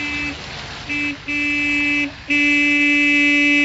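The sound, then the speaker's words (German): A car horn honks four times in an audio drama. Two short toots are followed by a longer blast, then a final loud, sustained honk, all steady in pitch with no talk. “Ja, hup nur, ich werde auch hupen.”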